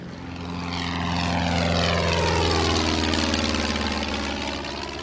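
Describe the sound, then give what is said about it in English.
A small propeller plane takes off and flies after practice touch-and-go landings over a coastline. Its loud, droning engine hum swells over the first seconds, then holds steady while its tone shifts gradually lower. “three touch and goes, which are practice takeoffs and landings. Eventually, he heads to the skies.”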